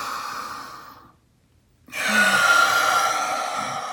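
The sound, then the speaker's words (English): Deep cleansing breaths during a guided breathing exercise: a long, airy breath fades into a brief silence, then another full, breathy breath starts sharply and holds steady to the end. The sound is soft and noisy, with no speech. “let's take a couple big cleansing breaths here. So we're going to inhale. Let it all out. One more of those.”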